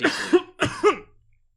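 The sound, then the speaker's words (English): A man coughs deeply twice in quick succession, each cough a rough, chesty burst with a short throaty tail, then quiet. “He coughs”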